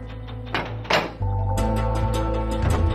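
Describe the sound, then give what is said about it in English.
Heavy thunks and clunks from the massive, thick metal door of a room-sized safe being pulled open, a few dull impacts followed by a steady low tonal drone. “Inside, one of the men pulls open the massive thick metal door of a room-sized safe.”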